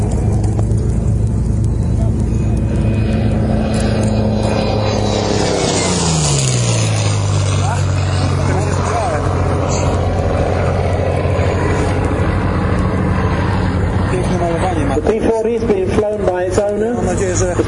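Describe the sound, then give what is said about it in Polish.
A P-40 warbird aircraft's piston engine flies past with a loud continuous drone whose pitch drops noticeably partway through, heard under ongoing talk. “Zobaczymy jak brzmi P40. Lining up and coming in. One of America's best. The P40.”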